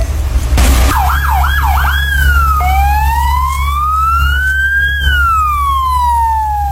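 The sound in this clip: Ambulance siren sounding during an earthquake drill: a few quick rising-and-falling yelps, then a long, slow wail that climbs, peaks and falls away. It is loud and steady over a constant low rumble.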